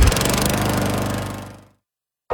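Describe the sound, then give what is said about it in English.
A Gravely lawn mower engine runs with a steady, rough, pulsing drone, then cuts off abruptly into silence, followed by a brief burst of sound at the very end. “Take your lawn mowing up a notch with a Gravely.”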